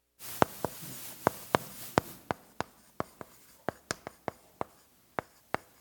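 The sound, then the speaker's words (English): Someone writes on a board during a church sermon, making many sharp tapping strokes and soft scratches in an uneven rhythm, faint and with no talk over them. “Sorry, ran out of room. I used to just turn and write down the side.”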